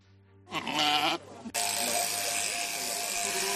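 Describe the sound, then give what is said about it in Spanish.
Sheep shearing: a low hum, then a sheep bleats once with a wavering cry before electric clippers switch on into a steady, loud buzzing that continues to the end. “¿por qué vienen a esquilar de un país tan tan lejano como Uruguay? Hemos pedido a uno de ellos que haga un alto en su trabajo para atendernos, un trabajo que suena así.”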